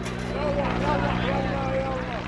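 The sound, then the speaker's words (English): A military helicopter flies overhead above protesters near Rabaa al-Adawiya Square, a steady, dense rotor and engine drone with a low humming undertone. Faint voices rise and fall beneath the noise throughout. “But the military is keeping a close watch from helicopters overhead, like this one that flew over while I was there.”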